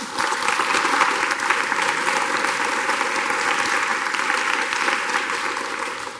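Audience applause welcoming a cardinal to the stage, a loud, sustained clapping that holds steady throughout.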